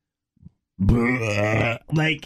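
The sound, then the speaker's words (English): A voice imitates a loud burp: one long, guttural, drawn-out belch, then a shorter second one, preceded by a brief faint grunt. “bleh, like super burp, like beyond a burp”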